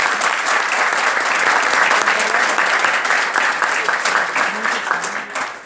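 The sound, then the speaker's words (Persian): Audience applause at a live talk greets the speaker, a dense, continuous wash of many hands clapping that holds steady and loud before easing slightly toward the end. “دم همتون گرم، یه دست به افتخار کنید.”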